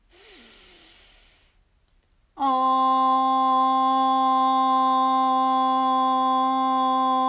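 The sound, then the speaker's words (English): A deep inhale at the start of a breathing and Om meditation exercise: a soft, airy intake lasting about a second and a half, then a pause and a long, steady, loud held tone. “So deep breath in.”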